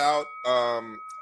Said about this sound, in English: Got to ding the bell for Kenny on that one.